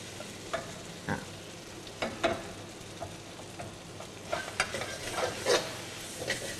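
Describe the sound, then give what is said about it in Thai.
Bean sprouts are stir-fried with sauce in a pan. A soft, steady sizzle runs beneath intermittent scraping and clicking strokes of a utensil, all faint and with no talking. “เดี๋ยวใส่ถั่วงอกเสร็จครูมอสจะต้องใส่น้ำซอสอีกครั้งหนึ่งเพื่อให้น้ำซอสเนี่ยซึมไปถึงผักที่เราใส่ด้วยนะคะ”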